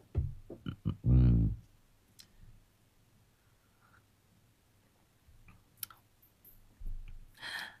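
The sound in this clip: Sharp clicks of a key being pressed, a few quick taps near the start alongside brief vocal sounds, followed by quieter stretches and a short burst of noise at the end.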